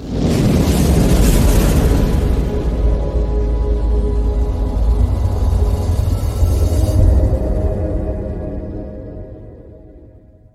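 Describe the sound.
A fire being started gives a loud, sustained roaring whoosh with deep rumble that holds steady for about seven seconds, then gradually fades away.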